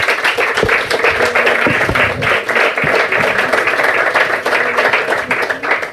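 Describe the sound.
Audience applause welcoming people to a public debate meeting on international conflict resolution: loud, dense, continuous clapping that holds steady for the whole stretch.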